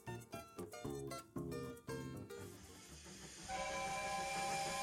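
A steam train sounds its whistle: a series of rhythmic, pitched bursts gives way to a steady hiss beneath a sustained, multi-toned whistle.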